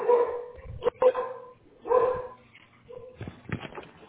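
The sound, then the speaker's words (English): A dog barking in several loud, sharp barks with short gaps between them, plus some softer yelping in between. “That's a dog barking.”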